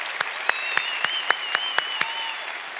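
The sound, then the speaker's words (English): Clapping in a church service, heard as a steady beat of sharp, evenly spaced claps. A sustained high tone runs underneath. “But let's give him one more big hand.”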